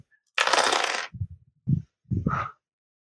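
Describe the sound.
Several dice rolled for a tabletop role-playing game check: a bright, rattling clatter bursts out first, then a few dull low knocks follow as the dice tumble and settle, with no voices.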